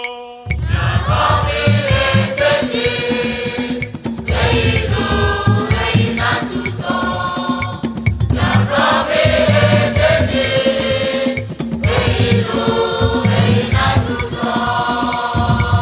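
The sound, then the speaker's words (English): Bobobo, also called Akpese, a neo-traditional Ewe popular music from Pando in Ghana's Volta region, plays loudly and without a break after a brief silent start. Dense percussion drives a steady rhythm under layered melodic parts. “That's the sound of Bobobo, also known as Akpese, a neo-traditional popular music of the Ewe people, created in the town of Pando in the 1950s from older styles of recreational”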